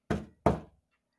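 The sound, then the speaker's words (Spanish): Two sharp knocks on the door of a straw house, each a loud, hollow thud that fades quickly, with a short pause between them and nothing else around them. “Se dirigió a la casa de paja y llamó a la puerta.”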